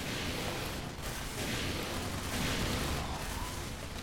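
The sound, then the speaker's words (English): Gunfire fills a video game battle, with bullets flying past in both directions. The sound is a faint, dense, continuous crackle of shots with no pauses. “Oh boy, there's just so many bullets shooting past me in both directions.”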